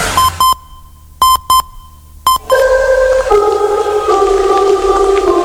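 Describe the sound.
A three-second signal of electronic beep tones: a few short, sharp beeps at one steady high pitch with gaps between them, then a sustained, layered electronic tone that stays loud to the end.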